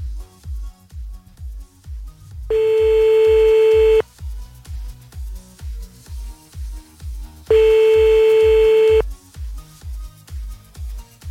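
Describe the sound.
Telephone tones sound while calling a number back: two long, steady beeps about five seconds apart, over a continuous low, rhythmic thumping pulse.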